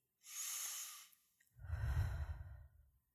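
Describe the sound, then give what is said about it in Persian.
Deep breaths taken while seated upright with a straight back: a soft, airy inhale followed after a short pause by a longer, fuller exhale. “پشتتون رو صاف کنید، چند تا نفس عمیق بکشید.”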